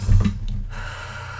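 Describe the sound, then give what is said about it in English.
A single deep breath, loud and airy at first, then trailing into a softer, steady rush of air. “Okay, deep breath.”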